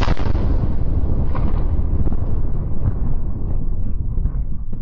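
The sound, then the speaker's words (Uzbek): A powerful explosion and fire at a customs warehouse produce a sustained, thunderous roar. A dense low rumble stays loud throughout while the brighter, crackling upper edge gradually fades, with occasional bursts breaking through. “Powerful explosion at a warehouse in the capital city of Tashkent several hours ago.”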